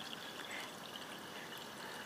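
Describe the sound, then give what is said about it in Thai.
Plain water is poured in a little at a time into a sticky liquid mixture for a steamed mung bean dish, making a soft, steady trickle that stays faint and continuous throughout. “ใส่น้ำเปล่าเล็กน้อยค่ะ”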